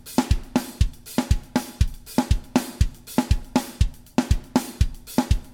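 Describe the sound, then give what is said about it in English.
A four-on-the-floor kick drum beat with a partial tresillo and snare, where punchy low kicks fill the gaps between snare hits in a steady repeating pattern of many strikes, played loud and alone. “So what you've got there is four on the floor with a partial tresillo over top of it, and in the places where the snare doesn't hit, the kick is filling in the parts that are missing, right?”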